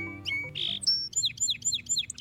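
Bird chirping: a few varied high notes, then a quick, regular series of sharp downward-sweeping chirps repeated several times. Fairly faint, alone, with no talk.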